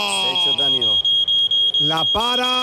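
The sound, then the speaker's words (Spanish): A Verisure security alarm goes off, giving a piercing high-pitched electronic tone that pulses rapidly and keeps sounding while a voice speaks over it. “Está entrando en un área protegida por Berisur. Suena, funciona, hay que ocuparse de la defensa activa Berisur”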